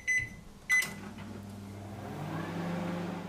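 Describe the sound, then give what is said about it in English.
A microwave oven heats a bowl of butter: two short, high electronic beeps are followed by the steady low hum and whir of the running oven. “I've got a big wad of butter, which I'll stick in a bowl. And I'll just nuke that for like 30 seconds.”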